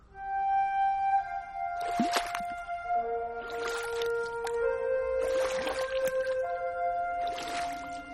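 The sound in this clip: Water sounds of a sampan boat drifting slowly on a river at night: four soft, evenly spaced watery swishes over a sustained tonal music bed, with no talk.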